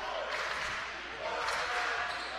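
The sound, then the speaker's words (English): A basketball is dribbled on the court during a women's basketball game. Faint repeated bounces sit beneath steady crowd noise. “Gilbert dribbling between the circles.”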